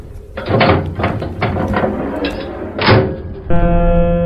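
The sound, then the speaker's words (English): An airlock door opening: a run of heavy mechanical thumps and hissing bursts, then a steady, buzzing tone that starts abruptly and holds to the end. “verbal confirmation, open airlock. Airlock open.”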